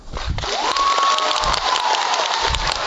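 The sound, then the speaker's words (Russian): Audience applause for a singer on stage in a concert hall, a dense, steady wash of clapping with a faint cheer rising through it, sustained and loud throughout. “слышать из этой темноты, я же вас вообще не вижу, слышать эти аплодисменты”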